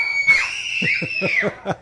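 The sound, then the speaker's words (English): A group of people scream together outdoors on a pier, letting out a loud, sustained, shrill cry that holds a steady high pitch for well under two seconds. “they're out here on the pier. So give me a scream, guys.”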